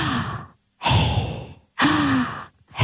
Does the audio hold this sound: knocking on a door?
no